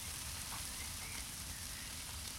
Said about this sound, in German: Die Wurst. Lecker, lecker Wurst. Hört ihr, wie das brutzelt? Lecker Wurst.